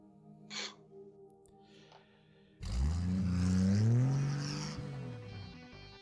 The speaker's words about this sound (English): You hear a vehicle accelerating loudly.